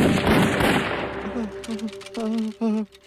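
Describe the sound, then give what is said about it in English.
Rifle gunfire from a group ordered to commence firing crackles as a dense, loud burst for about a second and then thins out, followed by voices. “Others can shoot and may become war heroes. Now, commence to firing.”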